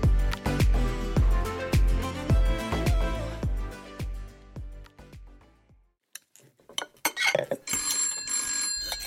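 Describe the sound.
Telephone ringing at a dinner table, heard as a run of bright, evenly spaced ringing strikes that fade, then a short gap followed by a busier stretch with faint voices.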